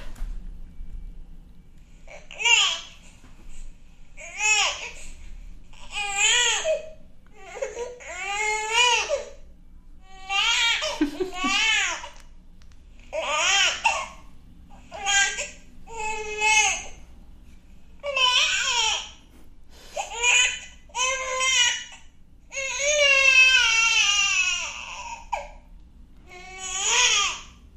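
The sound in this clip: A baby makes vocal sounds driven by the sucking reflex. Many short babbling and whimpering utterances are separated by brief pauses, with a longer, more strained cry-like burst near the end.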